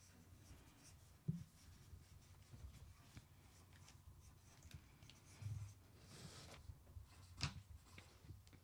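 Pens or pencils scratch faintly and continuously as several people write words on paper for a word game. A few louder strokes or taps stand out, with no talk.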